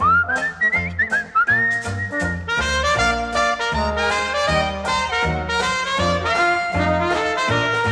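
A person whistles a song melody of bright, sliding notes, first almost alone in short phrases, then over full, steady instrumental accompaniment.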